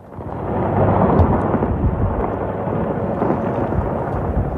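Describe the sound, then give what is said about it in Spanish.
Missile strikes in wartime make a deep, continuous rumbling roar that swells early and holds steady, with no clearly separate blasts. “Ese sonido de los misiles y ese sonido de la guerra está marcando también los mercados.”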